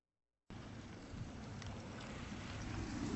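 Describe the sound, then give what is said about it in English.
Steady rushing roar from a dredging operation pumping sand through a big pipe on the beach at Coney Island to replace storm-lost sand. The dense, even noise holds throughout and grows slightly louder toward the end. “here's the sound of dredging being done at Coney Island.”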